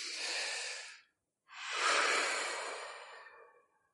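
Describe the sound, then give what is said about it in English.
A deep breath in and out during a guided relaxation exercise: a breathy inhale of about a second, a brief silent pause, then a longer, fuller exhale that slowly fades away. No talking. “Close your eyes. Yes. Is your eyes closed? Yes. Okay. Take a deep breath.”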